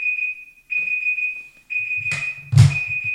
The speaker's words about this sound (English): you've got an alarm in here somewhere.